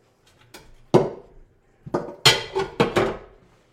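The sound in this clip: Onions going into a pan while cooking a potato and anchovy dish, heard as a run of sharp knocks and clatters of cookware and utensils: one loud hit, then a tight cluster of several more.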